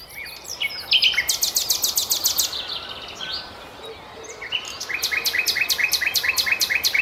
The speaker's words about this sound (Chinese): 大家听，这就是夜莺的声音。